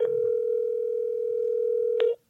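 A telephone dial tone after a call cut out: a single steady, unbroken tone that holds for about two seconds, then stops abruptly, with faint clicks at its start and end.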